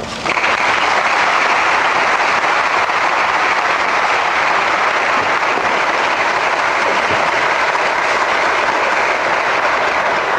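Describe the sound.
Audience applause welcoming a speaker, a dense, continuous wash of many hands clapping, loud and even throughout with no voices.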